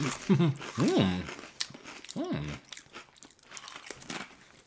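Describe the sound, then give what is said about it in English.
Soft dill-flavoured sour cream chips are chewed, with quiet crunching and mouth sounds mixed with a few hummed murmurs of approval. “Wow. They're soft. They don't cut your mouth. The texture is kind of unique on these chips.”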